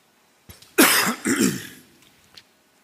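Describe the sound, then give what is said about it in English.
A person clears their throat during a church service: two rough, loud, raspy bursts close together, with a faint click before and after. “I'm gonna clear my throat again”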